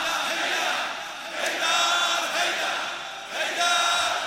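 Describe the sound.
An audience at a religious talk cheers and shouts in unison, a dense, sustained crowd roar that swells in two louder surges before easing back.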